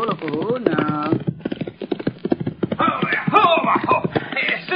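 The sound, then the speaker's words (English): Clip-clop of horses' hooves as riders approach, a steady run of many hoof strikes that continues throughout beneath people talking. “Rider come this way, Cisco. Oh, si. Far behind him, two more riders.”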